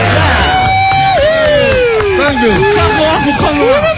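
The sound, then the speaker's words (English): Crowd cheering and whooping at an outdoor Christmas event on a plaza, loud and continuous, with shouted voices rising and falling over a dense bed of babble and some clapping. “Let's give him a nice round of applause,”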